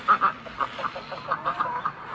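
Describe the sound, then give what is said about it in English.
Ducks quacking in a farm's duck area: a quick run of many short, nasal quacks, loudest in the first two calls, then a steady chatter of softer calls. “Hi, ducks.”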